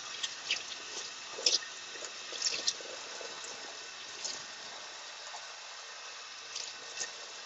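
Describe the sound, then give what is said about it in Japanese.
Water runs quietly as a seasoned cast-iron skillet is washed with hot water and a sponge, without detergent, during camp cooking. Soft splashes and scrubbing come in a few small bursts over a low, steady trickle. “洗剤を使うとせっかく馴染んだ油が取れてしまうのでお湯でスポンジを使って洗っていきたいと思います。”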